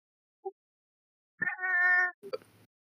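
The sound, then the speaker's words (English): A house cat gives a single drawn-out meow with a steady pitch. A brief faint chirp comes before it and a short, rougher sound follows. “Okay, that was my cat.”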